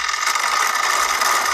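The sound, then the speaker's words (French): Dense mechanical whirring and ratcheting of a bicycle derailleur changing gear, a steady rattling hiss that holds evenly through the short clip with no voices. “c'est un bruit de vélo, ouais. Et c'est quand on entend le dérailleur qui change de vitesse.”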